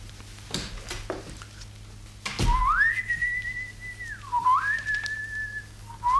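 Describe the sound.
A man whistles a tune from an opera, clear and fairly loud, holding long steady notes and gliding smoothly between pitches, after a few soft knocks and rustles at the start.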